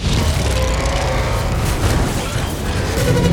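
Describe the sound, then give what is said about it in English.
A robot dinosaur gives off a loud mechanical roar: a dense, booming wall of grinding noise that runs without a break from start to finish. “speaking of Dinobots, we'd like to welcome whatever the hell noise it is they make into the Transformers Hall of Bwong.”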